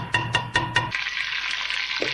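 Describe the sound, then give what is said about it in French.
A large pot of rice and beans cooks over a fire. Four sharp knocks open the sound, followed by a steady, even sizzling hiss. “une grosse marmite était déjà au feu”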